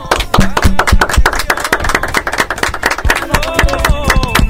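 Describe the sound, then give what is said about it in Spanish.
Dense, rapid applause from a group at the sign-off of a primary-school radio program, sustained at a steady loud level for the whole clip, with a tonal musical line entering near the end. “Este aplauso es para ustedes.”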